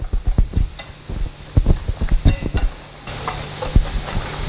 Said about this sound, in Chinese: 这个喂奶得使劲的搅拌，尤其是这第一次的搅拌，得给它那个充分的搅匀了